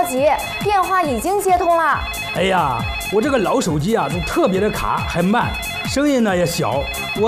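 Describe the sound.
A telephone rings before a call is answered: a bright electronic ringtone that repeats its short melodic phrase loudly and steadily throughout.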